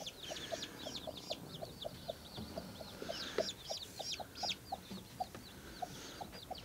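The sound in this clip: Hen clucking among her chicks in an improvised rearing shed with no technology or power: a steady run of short low clucks beneath many rapid, high-pitched peeping chirps from the chicks, with no talking.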